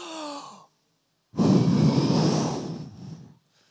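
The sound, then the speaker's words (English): Children take a deep breath and then blow it out together, making a loud, steady breathy rush that lasts about two seconds before fading. “So kids, when you take up a deep breath right now, go, and then blow out.”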